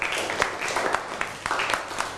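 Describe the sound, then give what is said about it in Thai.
Students clapping for a classmate in class, a short, fairly quiet round of applause with a few sharper individual claps standing out from the steady patter. “นั่งลงครับปรบมือให้กับเพื่อน”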